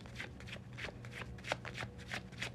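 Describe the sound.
Tarot cards are shuffled by hand in soft, repeated papery strokes that keep a loose, uneven rhythm at low volume, with no talking.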